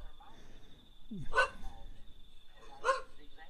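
A dog barks twice, two short, sharp bursts about a second and a half apart, heard over a faint steady hum with no other sounds standing out.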